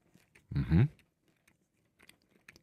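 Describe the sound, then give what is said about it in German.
A bite into the crust of bread made from high-extraction Swiss flour gives one loud, crunchy crack, followed by a few faint, scattered chewing crunches with no talking. “Okay, komm, dann probiere ich jetzt hier mal ein Stück mit Kruste.”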